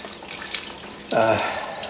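Water runs from a tap while someone washes, a steady hissing rush that starts abruptly partway through and continues to the end.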